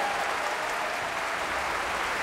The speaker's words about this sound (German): Jubel und großer Applaus für den Pianisten Rudolf Buchbinder.